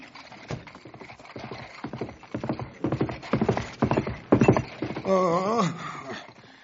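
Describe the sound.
Mules' hooves clip-clop as they pull wagons: many steady, rhythmic hoofbeats, followed near the end by a loud, wavering whinny-like call.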